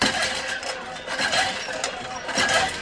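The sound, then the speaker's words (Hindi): A hand pump is worked, making a loud, continuous, gritty rushing noise with a few rhythmic surges from the pumping strokes. “ये है handpump की आवाज।”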